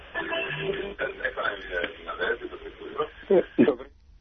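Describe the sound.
A radio plays behind a caller on a phone line. It sounds narrow and tinny through the telephone band, with voices talking over it throughout.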